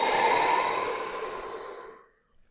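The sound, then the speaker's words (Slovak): A person breathes out during a breathing exercise: one long, forceful exhale that lasts about two seconds and gradually fades to silence, then a faint, short breath. “A vydých.”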